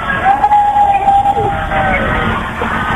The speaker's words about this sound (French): les premiers véhicules de la police nationale qui passent à ma hauteur